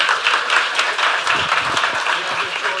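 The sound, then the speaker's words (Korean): A church audience applauds during a Korean worship service: steady, dense clapping at a constant level throughout, with no breaks. “두 분한테 박수 쳐주시면 감사하겠습니다.”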